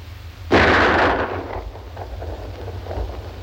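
A single rifle shot cracks out sharply and loudly, then fades into a booming, rumbling tail that lingers over a low background hum.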